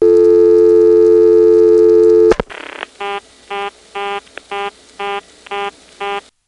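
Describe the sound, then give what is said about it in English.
A steady telephone tone cuts off with a sharp click and burst of noise, then a telephone register sender's reorder tone follows as a regular string of short, evenly spaced tone pulses. “what is the register sender dialing to get that reorder to us? It doesn't appear by magic. It has to dial something to get it, and normally you would expect it to sound like this.”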